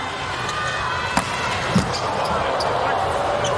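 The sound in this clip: A volleyball serve struck in a men's match against Slovenia: a sharp thud of the ball is followed by a second thump, over steady arena crowd noise and a commentator talking.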